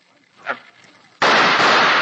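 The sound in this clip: A gunshot in a radio drama sounds as a sudden, very loud blast partway through that stays loud and harsh to the end, after a quieter opening with a brief faint sound.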